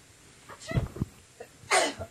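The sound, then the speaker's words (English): A woman sneezes: a few short breathy catches build up, then one sharp, loud burst of noise comes near the end, followed by a small trailing sound. “I'm going to sneeze.”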